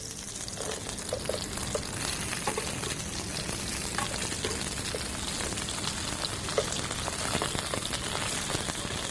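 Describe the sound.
Steady sizzling of food pan-fried in sesame oil: a dense, continuous crackle with a few sharper pops that holds an even level throughout.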